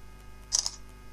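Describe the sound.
A camera shutter fires as the shutter button is pressed, giving two quick, crisp clicks a split second apart, fairly faint over a quiet background hum.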